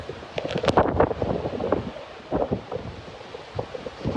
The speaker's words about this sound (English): as the wind rips down tree branches in his backyard